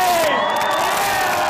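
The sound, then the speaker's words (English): Brief, dense burst of a crowd cheering and calling out at Melbourne Airport as footballer Hakeem Al-Arabi arrives off a flight from Thailand; a continuous wash of excited voices holds at an even, loud level. “That was the sound of Melbourne Airport this afternoon following the arrival of footballer Hakeem Al Arabi after stepping off a flight from Thailand.”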